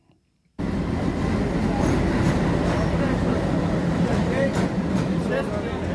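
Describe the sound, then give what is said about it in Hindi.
Steady, loud rumbling of a special train arriving at Patna railway station, a continuous dense roar with voices mixed in. “सुबह के 4 बज चुके हैं, जो special train पीड़ितों को पटना लेकर आने वाली थी वह अभी पहुंच चुकी है। काफ़ी तमाम लोग स्टेशन पर पहुंचे हुए हैं।”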